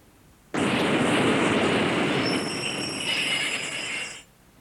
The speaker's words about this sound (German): Ist das eine U-Bahn? Hm, ja. Ja, das ist eine U-Bahn.